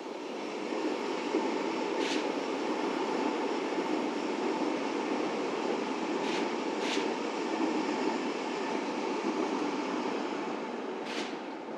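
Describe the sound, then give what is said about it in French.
A train passes beside a railway line: a steady, broad rumble of wheels and carriages fills the whole clip, with a few brief, sharp high screeches cutting through. “Ah, un train qui passe.”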